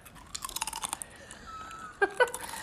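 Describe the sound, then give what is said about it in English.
Someone crunches into a chip: a quick run of crisp, brittle chewing crunches, a brief lull, then two louder, sharper crunches near the end. “You better not eat that chip. Because you will crunch into”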